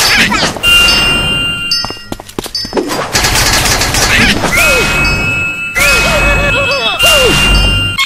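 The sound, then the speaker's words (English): Gunfire in a video game: bursts of rapid shots mixed with crashes, sharp metallic hits and dings, set against electronic game tones and sweeping synth sounds at a loud, busy level. “Oh, look! Her friends are shooting her.”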